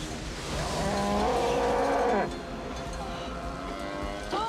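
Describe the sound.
A cow moos in one long, low, drawn-out call during a tornado, over a strong roaring wash of wind and engine noise, with voices around it.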